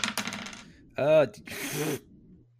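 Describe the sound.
Two six-sided dice rolled during a tabletop role-playing game: a few quick clattering bursts with bright, ringing, almost coin-like tones as they bounce and settle.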